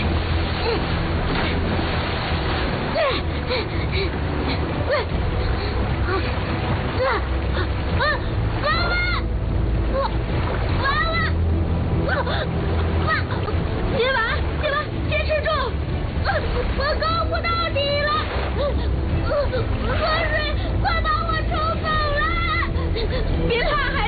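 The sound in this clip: Continuous loud splashing and rushing river water as a mother and child swim hard toward the far bank against the current, steady throughout, with voices crying out over it.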